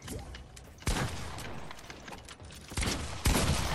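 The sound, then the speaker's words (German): Video game gunfire with shots fired through a wall. A few loud, sharp bursts of shooting cut through a continuous noisy game soundscape. “Du hast durch die Wand geschossen.”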